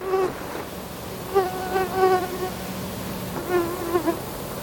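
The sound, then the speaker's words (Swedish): Buzzing mosquito in Blekinge, Sweden: a thin, whining insect drone that swells and fades several times, its pitch wavering as it passes, alone and fairly faint. “det här ljudet, det har det inte blivit lika mycket av denna sommar, för ja, det är så att det är ovanligt lite mygg detta år i Blekinge och i stora delar av Sverige”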